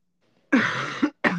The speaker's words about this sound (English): I have been coughing so much.